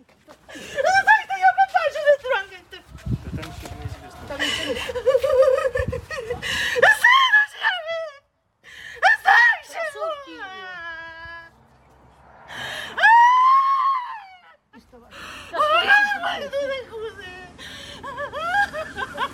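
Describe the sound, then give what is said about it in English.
Wailing of a mother in anguish after finding her son's body dumped in a well near Kyiv during the war in Ukraine: repeated loud, high crying bursts with sliding, falling pitch, broken by gasps and sobs and short pauses. “She is wailing, "My little son," as she falls to her knees.”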